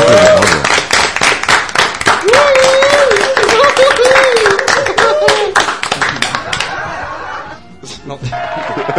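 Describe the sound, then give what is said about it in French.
Small-crowd applause sound effect: dense, loud, steady clapping with a voice rising over it midway, then the clapping thins and fades out toward the end. “Et oui, j'ai mis des applaudissements. Ah cool. Foule en délire. J'ai mis des applaudissements. Une petite foule, hein.”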